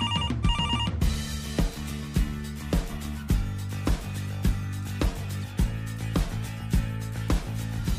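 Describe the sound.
A telephone ringtone plays for an incoming call: a repeating tonal melody over a steady, regular beat, with no talking.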